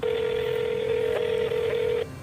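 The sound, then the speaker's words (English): A telephone line tone sounds as a call is placed: a single steady, humming tone holds at an even level for about two seconds, then cuts off. “and then he finally picks up the phone”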